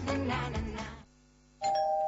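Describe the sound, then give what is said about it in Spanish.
A house doorbell rings with a single bright, sustained chime near the end, after a short stretch of other sound and a brief pause. “Este es el timbre de tu casa la próxima Navidad.”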